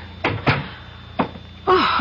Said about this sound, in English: Oh, come in. Come in, let's shut the door.